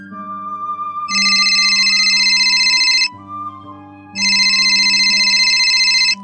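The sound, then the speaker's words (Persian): A red telephone rings loudly in two long, bright, high-pitched bursts separated by a short pause, over a quieter steady low tone. “ناگهان تلفن قرمز بارگاه با صدای بلندی به صدا در می‌آید و این اولین تماس تلفن قرمز بعد از به قدرت رسیدن شارلا بود.”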